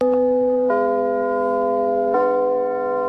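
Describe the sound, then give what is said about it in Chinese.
A curtain-raising bell sounds in a Beijing theatre as a sustained, ringing chime of three long tones, each stepping slightly higher in pitch and held steadily without fading. “每当首都剧场的启幕钟声敲响，戏剧的神圣感就会充满舞台。”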